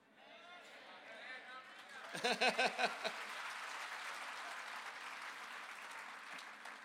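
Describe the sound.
Audience applause and clapping: a voice is heard first, then a short run of several loud, rhythmic claps breaks out and swells into sustained, even applause from the crowd.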